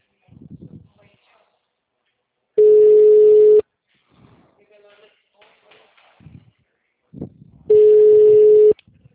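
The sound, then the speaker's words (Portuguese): A telephone line rings unanswered: two long, steady, mid-pitched ringback tones, each lasting about a second and spaced several seconds apart, with people talking in between. “Não, porque já faz 5 minutos que tá chamando e ninguém me atende.”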